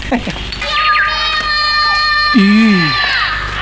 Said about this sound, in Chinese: 悟空，你听，确实是个孩子。